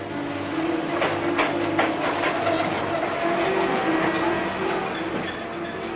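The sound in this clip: Steady rumble of a train travelling on rails, a continuous broad roar with faint tonal squeals riding over it, holding an even loudness throughout with no voices.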